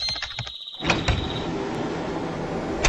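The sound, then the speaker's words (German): A vehicle canopy opening: a few clicks and then a sudden mechanical onset that turns into a steady, loud hissing rush of noise, which carries on to the end. “Schnell das Verdeck aufmachen.”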